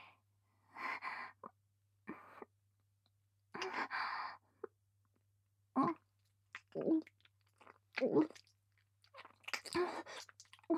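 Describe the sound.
Wet kissing with tongue: soft, moist smacking and slurping mouth sounds come in many separate bursts with brief quiet gaps, intimate and fairly faint overall.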